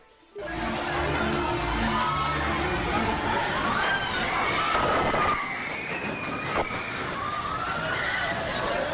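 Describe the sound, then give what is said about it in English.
Loud, continuous roaring rumble mixed with a crowd shouting and screaming inside a nightclub in Valparaiso, Chile as an earthquake strikes, the din swelling and holding throughout. “This is the sound of amateur video taken at a nightclub in Valparaiso, Chile when the earthquake struck.”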